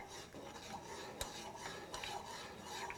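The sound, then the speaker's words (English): A spoon stirring water in a pot to make a vortex for poaching an egg. Soft, continuous swishing with light scraping and one brief click stays faint and even, with no voices. “Now you do this. You make a little vortex.”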